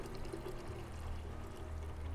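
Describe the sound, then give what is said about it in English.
Mulled wine poured from a vessel into a mug: a faint, steady liquid stream that flows without a break throughout. “Well, will you settle for a cup of mulled wine? Here, let me pour you a mug.”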